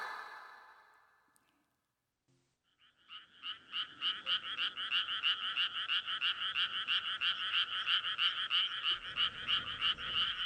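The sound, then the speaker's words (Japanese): Frogs croak from a rice paddy in a steady, rapid pulsing chorus of bright, rasping calls that starts after a fading hiss and a short quiet pause, then holds loud and even to the end. “裏の水田からカエルの鳴き声、夏がそこまで来ていた。”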